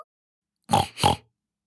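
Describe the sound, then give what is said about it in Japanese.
A human voice imitates a pig grunting: two short, nasal oinking bursts in quick succession, fairly loud against silence. “ブタさんだぞー。ブヒブヒしちゃうぞ”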